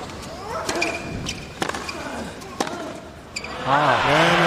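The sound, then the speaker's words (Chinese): Tennis ball strikes in a fast, deep-hitting rally during a tiebreak between Nadal and González: a few crisp, sharp pops at a brisk, steady rhythm, with commentators talking over the play. “快速的击球，节奏很快，落点也够深。”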